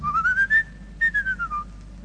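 A person whistles a blackbird's song in a clear, pure tone. The phrase rises in short notes, holds a steady high pitch, then glides back down, with no other sound.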